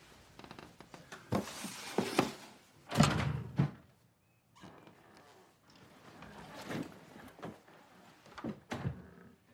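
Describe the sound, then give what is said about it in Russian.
A drawer pushed shut, heard as a few faint wooden thunks and sliding knocks separated by quiet gaps, with no talk. “Неуверенно посмотрев на ящик, задвигает его обратно.”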